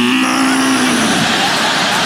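A cow moos in one loud, sustained, low call that holds steady for about two seconds.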